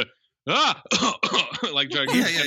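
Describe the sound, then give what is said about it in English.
Coughing from a person: a few rough, throaty bursts in quick succession, loud and voiced, with a strained, gravelly edge like throat clearing. “I was just coughing.”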